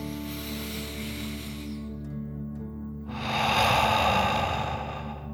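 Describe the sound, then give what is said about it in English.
A deep breath pushed out through the mouth as part of a guided relaxation exercise, a long breathy hiss swelling over soft sustained background music after a quieter stretch. “breathing fire like a dragon. Ready? Deep breath in and out.”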